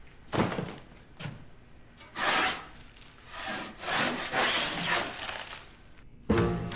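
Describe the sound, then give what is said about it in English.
A metal-bladed scraper scrapes paint off a wall in many rough, rasping strokes of uneven length, some short and some drawn out, with a sharper stroke at the end. “Victor peers into a bucket and pulls out a metal-bladed scraper. He strips a chunk of paint off the wall, puts down his carry-on bag, then continues scraping.”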